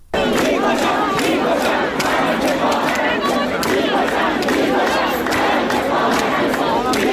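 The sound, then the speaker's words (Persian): Student protesters at Ferdowsi University of Mashhad chant slogans, many voices shouting together in a loud, continuous rhythmic roar that never lets up. “چند تا از این دانشگاه ها ما صدای شعارها رو داریم که براتون پخش میکنیم، از جمله دانشگاه فردوسی مشهد.”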